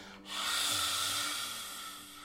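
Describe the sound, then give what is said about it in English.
A forceful lion's breath exhale during yoga: one long, breathy, open-mouthed hiss that surges suddenly, holds strong, then slowly tapers off. “And exhale, lion's breath, lifting the heart.”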